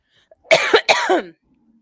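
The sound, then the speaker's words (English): A person coughs into a microphone in a short fit of a few harsh, close coughs in quick succession. No talk is heard around them. “I'm coughing in your ear. I thought I was muted.”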